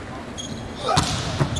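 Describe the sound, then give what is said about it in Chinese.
A powerful volleyball jump serve: a sharp smack of the hand on the ball, then a few quick thumps, heard over the low murmur of an indoor arena crowd. “好发球，王斌的直线大力跳发直接得分”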